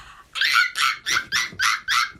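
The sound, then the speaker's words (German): A person imitates a baby monkey with a quick run of high, nasal, yelping squeals in short bursts of even rhythm, fairly loud and with no other sound. “Das ist ein Babyaffe. Also das erkennt man, dass es ein Affe ist.”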